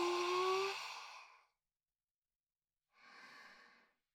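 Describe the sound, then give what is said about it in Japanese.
Deep breathing during a guided relaxation exercise: two long, breathy rushes of air. The first is louder and carries a faint voiced sighing tone, then after a pause comes a softer second breath. “大きく息を吸って、吐いて、はい、吸って、”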